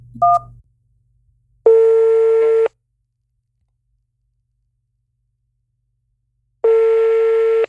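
A telephone keypad tone for the digit 1 sounds in a phone-menu style setting: after a brief click and blip at the start, two identical steady beeps of about one second each ring out, separated by a long silence.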